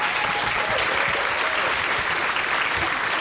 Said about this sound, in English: Let's give yourselves a round of applause.